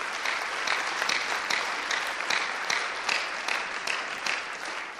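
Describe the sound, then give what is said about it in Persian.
Audience applause for an honoured guest: a dense, steady roar of many hands clapping at an even level from start to finish, with no talk over it. “میخوام یه دست بزنیم براش”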